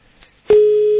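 Telephone busy tone after a caller is disconnected from a live call-in: a faint click and quiet lead-in, then one loud, steady, mid-pitched tone that starts abruptly and holds to the end.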